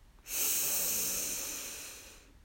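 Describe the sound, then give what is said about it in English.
A single long, deep breath taken during a guided breathing exercise, a steady airy hiss that starts abruptly and tapers off slowly over about two seconds. “Breathe in and out. Breathe in”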